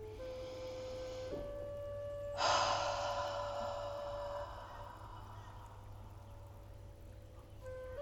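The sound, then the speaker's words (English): A deep breath in a guided breathing exercise, drawn in through the nose and let out through the mouth: one sudden breathy rush that tapers off slowly over a couple of seconds, above a faint steady tone. “We're now going to take three deep breaths in through the nose and out through the mouth. First breath.”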